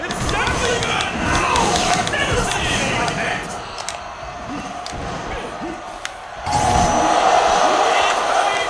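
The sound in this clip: A crowd roars in a wrestling video game as a slam move lands. Dull impact thuds come through the steady crowd noise, which swells louder near the end.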